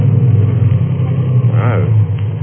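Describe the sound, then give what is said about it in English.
A choked car engine gives off a steady, low, muffled rumble throughout, with a brief voice heard over it partway through. “So I choked the car.”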